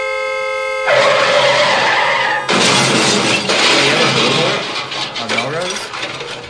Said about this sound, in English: And the crash.